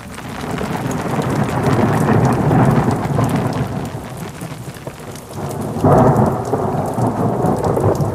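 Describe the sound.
Rain and thunder: a steady, loud downpour with deep rolling rumbles throughout, swelling into a heavier burst near the end.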